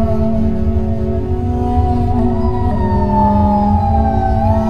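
Police sirens wail within loud music over a deep, steady bass, with sustained tones that slide upward in pitch toward the end.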